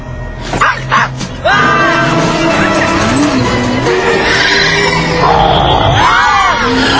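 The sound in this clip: A car driven fast, its engine roaring with squealing tires and whining tones that sweep up and down. A few sharp bursts come first, then a loud, continuous roar takes over.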